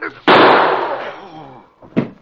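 A gunshot during a struggle in a radio drama: one loud, sharp report that dies away over about a second. A shorter, weaker burst follows near the end.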